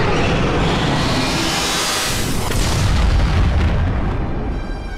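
A roaring explosive blast from the Final Dragon attack in a turn-based video game boss battle. A dense, loud, sustained rumble fills all five seconds and tapers slightly at the end.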